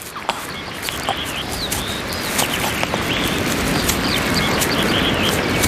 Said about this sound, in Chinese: 巢穴中传来雏鸟对父母的呼唤。